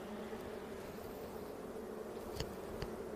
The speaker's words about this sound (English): Use our tool to help us get into the hive and gently pull out the frame.